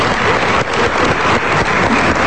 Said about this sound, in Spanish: Un aplauso.